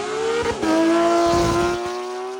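A BMW supercar accelerating hard, its loud engine tone dipping briefly early on as if shifting gear, then climbing steadily and sustained to the end.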